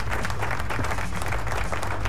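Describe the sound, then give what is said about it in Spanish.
A short burst of crowd applause during a rock music program, with dense, even clapping that holds steady at full loudness for about two seconds. “Aplauso, please.”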